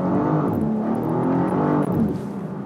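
A car engine in a racing video game gives a steady, burbling exhaust rumble that sounds tuned, holding an unbroken, fairly loud drone throughout with only small shifts in pitch.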